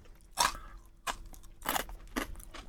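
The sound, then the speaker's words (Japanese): Someone crunches curry-flavoured kaki-pi, rice crackers and peanuts seasoned with fourteen spices. Several crisp, irregular bites and chews come through close and quiet, with no talk over them. “これの カレー味の柿ピー。 はい、どうぞこちらも。 あ、 カレー味です。 これカレーいただきますよ。”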